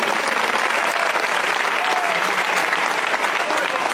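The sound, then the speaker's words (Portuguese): A church audience claps during a service: dense, loud, even clapping fills the whole stretch without pauses or a clear beat. “Pode bater as palmas.”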